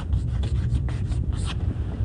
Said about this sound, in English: And I'm going to write it out because it is rather important, this law.